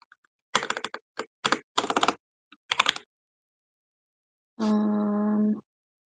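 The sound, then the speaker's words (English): Computer keyboard typing fast, with crisp key clicks in several quick, dense runs separated by short pauses, then a sustained tone after a gap. “I really like the way my keyboard sounds. It feels very nice, especially when I'm typing fast.”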